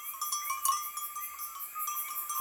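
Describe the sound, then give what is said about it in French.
Bells of a herd of goats or sheep being brought home through misty mountain fields: a faint, continuous high tinkling of many small bells over a soft, steady background. “Elle écouta les clochettes d'un troupeau qu'on ramenait”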